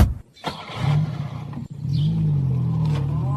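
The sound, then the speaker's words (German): A car engine revs and pulls away, a steady loud rumble that drones on after a brief dip near the middle, with no voices. “Adams, fahren Sie zum Hotel zurück.”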